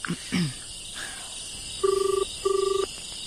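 Telephone ringing heard during a call, a double ring of two steady buzzing tones, each lasting under half a second with a short gap, over a faint hiss after a few soft clicks.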